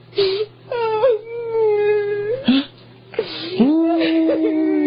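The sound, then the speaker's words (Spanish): A person wails and sobs in drawn-out, moaning cries. Several long vocal bursts are broken by short pauses, loud and with no other sound behind them. “¡Ahora te pones a llorar! ¡Ahorita estaba riendo!”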